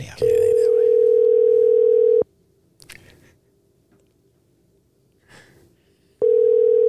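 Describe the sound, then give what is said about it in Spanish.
A steady, mid-pitched telephone dial tone sounds loudly while a call is being placed, cuts off, and returns after a quiet gap with a few faint clicks and rustles. “Vamos a llamar a eh, Quicky ahora mismo.”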